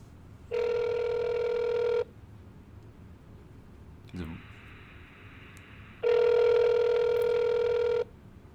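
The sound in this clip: Ringback tone of an outgoing call placed from an iPhone: two long, steady electronic rings separated by a few seconds of quiet, with a short click between them.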